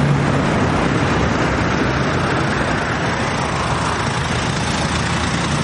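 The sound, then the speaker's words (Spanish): Slow-moving black luxury car: a steady, loud wash of engine and road noise that holds at an even level throughout, with no break or voices. “De pronto el coche gira unos metros y regresa deteniéndose a su lado.”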